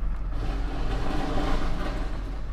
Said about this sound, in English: Really, it's like an inch too low. So, hold on a second here. Let me get pulled out here. It's gonna scrape here. I'm pulling out any minute. It's gonna start scraping.